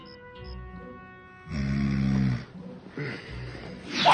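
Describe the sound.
A man lying down snores, with a couple of drawn-out rasping snores separated by quieter breathing gaps.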